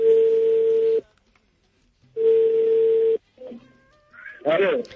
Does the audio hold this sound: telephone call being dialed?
yes

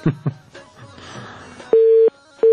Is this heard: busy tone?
yes

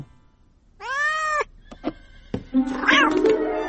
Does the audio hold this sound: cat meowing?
yes

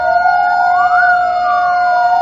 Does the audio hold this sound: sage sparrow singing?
no

